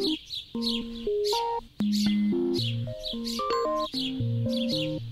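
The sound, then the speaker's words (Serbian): Sparrows chirp in many quick, bright, high-pitched bursts, repeated in short series over steady melodic instrumental music. “Pesma vrabaca je vesela i bodra, pa su i vrapcima često pripisivane takve ljudske osobine.”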